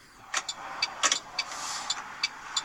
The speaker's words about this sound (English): This is a guy. It's a guy driving, which I love. I love driving videos.